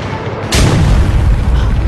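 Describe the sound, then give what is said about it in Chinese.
An artillery cannon fires a shell: one sudden, loud, heavy boom partway in, after steady background noise, then a deep rumbling that carries on to the end. “可是我们只有三发炮弹， 关键是看射击的质量。 预备，放！”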